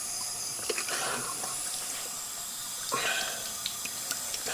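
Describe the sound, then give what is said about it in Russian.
Water running from a bathroom tap while someone scoops handfuls to wash their face: a steady, fairly quiet hiss of flowing water broken by a few brief splashes. “Он идет в ванну, набирает полные ладони воды из-под крана и умывает лицо.”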